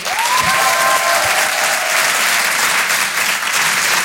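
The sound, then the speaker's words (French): Audience at a comedy show applauds a performer, a dense, steady burst of clapping that stays loud for about four seconds, with a brief cheer rising above it early on. “Vous pouvez l'applaudir très fort, Miri sur Rire et Chanson.”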